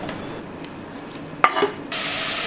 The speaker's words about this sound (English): And you want to cook this bacon on a medium-high heat till all the fat is rendered out and the bacon is nice and crispy. Make sure you give it a good stir every now and then.